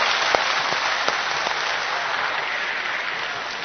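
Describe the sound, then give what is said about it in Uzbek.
An audience at a stage show gives steady, dense applause, a continuous clatter of many hands at even loudness throughout with no voices rising above it. “Mana shu tomoshamizda o'tirgan otaxon, onaxonlarga qarsak chalganlarning qo'li dard ko'rmasin.”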